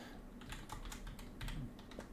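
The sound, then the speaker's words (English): Rapid typing on a computer keyboard, a quick, irregular run of many light plastic key clicks, fairly faint and steady, with no talking. “I can't type.”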